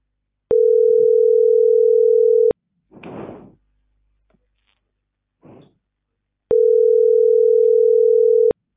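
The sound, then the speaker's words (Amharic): Unanswered telephone ringback tone on a call: two long, steady, mid-pitched tones of about two seconds each, separated by a gap of several seconds that holds a few faint rustles and clicks. “ስልክ አያነሱም እኮ ምን ይሻላል?”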